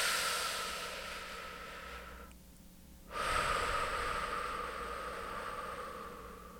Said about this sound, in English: Good, take a deep breath.